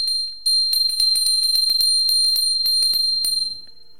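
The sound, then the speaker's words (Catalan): A small, high-pitched bell, the second of three differing bells, rings clearly on its own in a rapid, steady series of many bright strikes. The ringing then stops. “La campana número 2.”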